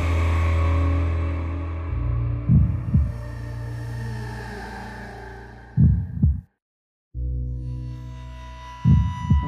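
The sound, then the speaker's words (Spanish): Heartbeat sound effect of an old man's heart: three slow pairs of deep, muffled double thumps over a steady low droning hum, with a brief full silence between the second and third pair. “Era el latir del corazón del viejo. Aumentó aún más mi furia, tal como el redoblar de un tambor estimula el coraje de un soldado.”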